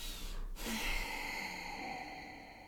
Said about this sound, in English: I'm going to take a breath now because now we're in this place of sadness.